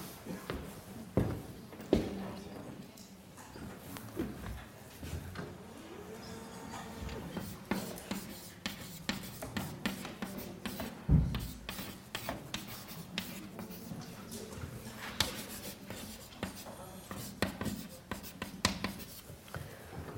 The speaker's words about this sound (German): Soll ich es auf die Tafel schreiben?